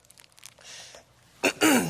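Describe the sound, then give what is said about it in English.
Two loud, harsh coughs from a speaker in an auditorium, following a stretch of softer, breathy throat noises. “Excuse me. I have to cough, but it's not because of any issue, okay? Man, it's a bad time. This is a bad time to cough in an auditorium, let me tell you.”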